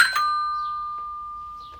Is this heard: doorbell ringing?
yes